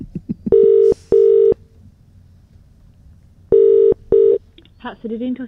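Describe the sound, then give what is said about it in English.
Four DTMF keypad tones as a telephone number is dialed: steady electronic beeps in two pairs, with a clear pause between the pairs. “Dialing now.”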